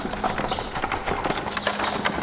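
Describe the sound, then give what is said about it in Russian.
Hooves clip-clop as a horse-drawn cart approaches the Rila Monastery on an Easter feast day, a steady, quick run of sharp knocking hoofbeats at a constant pace. “А вон телега подъезжает.”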